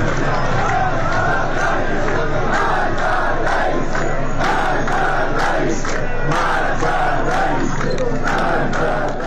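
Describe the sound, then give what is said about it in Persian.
Protesters chant protest slogans in the streets of Tabriz, a loud crowd voicing rhythmic, repeated bursts of shouting that pulse steadily from start to finish. “همچنین گزارش شد که همزمان با حرکت معترضان در تبریز، شماره دیگر از مردم به آنها پیوسته و همراه با آنها شعارهای اعتراضی سر دادند.”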